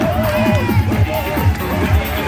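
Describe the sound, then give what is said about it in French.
A large crowd cheers and chatters at a downhill soapbox race whose cars launch from a five-metre ramp. The babble of many voices is dense and continuous, with a few louder bursts. “Et lancé sur une rampe de 5 mètres de hauteur, les bolides prennent de la vitesse devant un public nombreux.”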